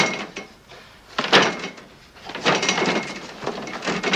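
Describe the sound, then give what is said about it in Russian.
A door in a hospital rattles and knocks as someone pushes it and it fails to open, with a few bursts of mechanical jiggling and clattering separated by brief quieter gaps. “пытается открыть дверь. У него не получается.”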